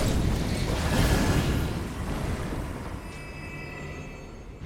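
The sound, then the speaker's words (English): Enemies exploding in a video game make a loud, broad rumbling roar that swells early and then slowly thins and fades over several seconds, with faint thin tones appearing toward the end. “Kill all these guys. Ah! What the heck? Be careful, they do explode.”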